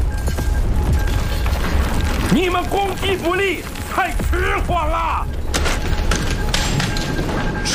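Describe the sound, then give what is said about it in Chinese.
Artillery fire from the Communist army booms and thuds in a war scene, heavy low blasts under a loud, churning din, with a voice crying out between the impacts. “你们现在根本无法想象共军的炮火有多厉害。听到了吗？听到了吗？他们已经打到我头上了。”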